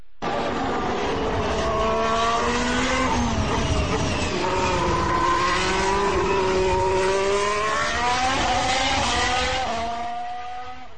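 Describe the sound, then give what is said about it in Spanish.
A high-revving Ferrari Formula 1 car engine gives a shrill, sustained whine whose pitch wavers up and down for about eleven seconds. It plays alone without talk and eases off slightly at the end. “Es otra cosa, más agudo, más revoluciones, y la verdad es que corre mucho ese motor Ferrari.”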